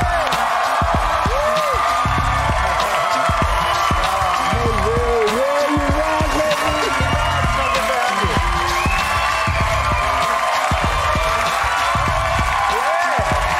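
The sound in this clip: A studio audience cheers, whoops and applauds as a talk show guest, an actor, walks out: loud, continuous crowd noise with scattered high shouts throughout.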